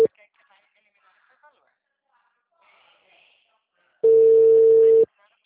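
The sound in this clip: A telephone call is being placed: after near silence, one steady mid-pitched tone sounds for about a second.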